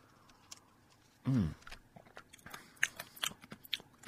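Ice cubes from an iced tea crunch between teeth: one loud, sharp bite, then many softer crunches and chewing clicks.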